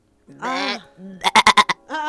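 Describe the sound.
A voice bleating like a sheep: a drawn-out nasal call, a short low one, then a quavering bleat of about five rapid pulses and a final call, all fairly loud.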